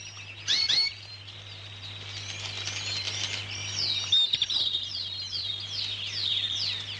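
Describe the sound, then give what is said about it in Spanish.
Pet birds kept for breeding chirp and sing, with many quick high-pitched tweets and short sweeping notes repeating throughout and a few louder bursts of calls. “le encanta ver cantar a los pájaros, igual que a Beethoven”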